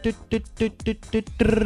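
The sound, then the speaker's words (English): Video game targeting beep: a tonal beep repeats about five times in quick succession, then merges into one steady tone. “So then you use your up and down arrows until that beeping sound is almost a constant.”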